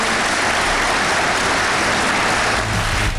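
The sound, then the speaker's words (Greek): Applause fills a parliament chamber after a vote on a bill: dense, steady clapping from many hands that stays loud and continuous for the whole stretch. “Η Μπακογιάννη χειροκροτεί πιο θερμά από όλους”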